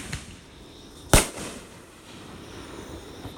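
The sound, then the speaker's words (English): Fireworks going off outdoors on a farm: one loud, sharp bang stands out above a steady hiss of background noise, followed by a few fainter pops. “Some of the fireworks got a little carried away. So we're going to take a minute and get that put out. Got a few extras that are going off.”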